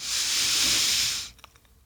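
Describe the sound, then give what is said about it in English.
A long, steady breath drawn in through the nose, a soft airy hiss that holds evenly for over a second, then stops and leaves near silence with a few faint small sounds. “We gonna deep breath in.”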